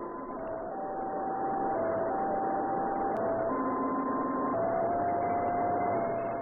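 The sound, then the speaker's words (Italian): A satellite radio signal that resembles a French fire engine siren: steady electronic tones stepping between a few pitches, sustained over a constant hiss with no talk. “Questo è presso poco il suono della loro sirena. Presso poco perché in realtà si tratta di uno dei più curiosi segnali inviati da un satellite.”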